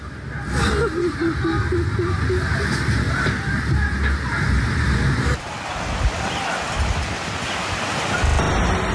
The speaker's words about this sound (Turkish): Ve burada da yine bir sokak tamamen suyla kaplanmış, araçların yarı boyuna kadar yükselmiş ve işte suyun gücü böyle önüne kattığı her şeyi sürükleyip götürebiliyor.